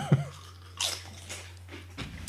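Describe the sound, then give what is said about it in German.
Someone bites and chews Chio Chips Philly Pizza flavour crisps: a few quiet, crisp crunches spaced apart, with soft chewing between them over a low, steady hum. “Aber probier, komm, einen kurz und dann Chio Chip Philly Pizza Tasting.”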